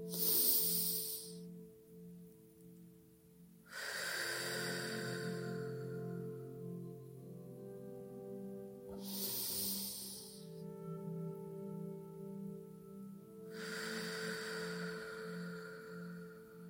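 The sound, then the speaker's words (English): Deep, slow breaths with long exhales during a guided relaxation: a few soft, airy breath sounds spaced several seconds apart, faint over a steady low hum. “let's take three nourishing breaths, longer on the exhale.”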